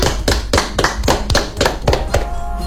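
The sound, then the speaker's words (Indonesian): Audience applause with hands clapping for a young sasando player, heard as a steady run of sharp, evenly spaced claps with no talking over them. “Tepuk tangan untuk Kak Suita.”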